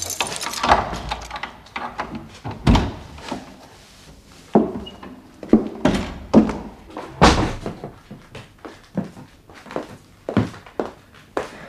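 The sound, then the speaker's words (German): A door is unlocked and opened by someone carrying a suitcase: irregular thuds, clunks and knocks of varying loudness, with some softer rattles between them and no voices. “Hier, nimm mir mal den Koffer ab, damit ich aufschließen kann.”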